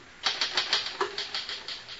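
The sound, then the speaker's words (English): Typewriter typing: a steady, even run of many crisp key strikes at a quick, regular pace, fairly faint, with no talk. “Finish typing it and I'll sign it.”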